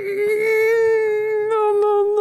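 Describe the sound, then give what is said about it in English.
A woman's crying sounds as one long, high wail held at a steady pitch, loud and unbroken, with no clear sobbing breaks. “She's crying. No, she's sobbing.”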